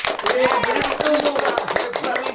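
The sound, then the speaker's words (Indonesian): A group of friends applauding a classmate claps in quick, uneven rhythm throughout. Voices sound over the steady patter of hands. “Teman-teman, mari kita tepuk tangan buat Lisa.”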